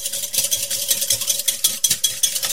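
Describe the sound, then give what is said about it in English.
About 150 grams of puree is whisked in a bowl with fast, rhythmic, bright scraping strokes that repeat many times at an even pace over a faint steady hum. “This is about 150 grams of puree. And we're just going to whisk.”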